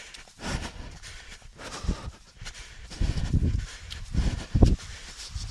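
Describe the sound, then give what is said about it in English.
Heavy, labored breathing from someone out of breath while walking up a gradual hill that grows steeper, with a run of rough, irregular breaths that swell louder toward the end and no talking. “So you may hear me now starting to get out of breath.”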